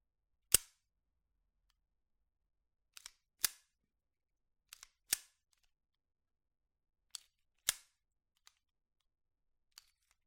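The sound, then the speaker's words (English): A pistol slide with a heavy recoil spring is released and worked, producing several sharp metallic clacks and a few fainter clicks, spread out and separated by silence. “Slide release.”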